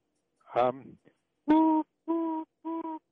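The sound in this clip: A person imitates the three-note call of a tufted titmouse. A short voiced sound comes first, then three steady, evenly spaced whistled notes at the same mid pitch, with silence between them.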